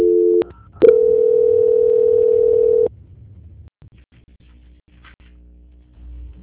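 A telephone line tone plays during a call transfer. A short steady beep is followed by a brief break, then one level tone holds for about two seconds before cutting to faint low line noise.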